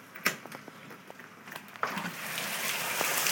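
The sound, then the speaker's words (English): Rain falling outdoors, a soft steady hiss that thickens and grows louder after a few scattered taps and clicks. “Hear that, guys? That's the sound of the rain. Bea, no. So that's just a little quick audio boo of the rain.”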